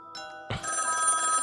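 A telephone rings with a bright, trilling electronic bell tone that starts after a brief quiet moment and carries on steadily to the end.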